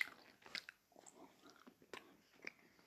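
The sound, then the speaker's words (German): Someone bites into a caramel sweet. The bites and chews are soft and faint, a few sticky crunches spread irregularly across the moment. “Und wir beißen mal rein. ist alles Karamell.”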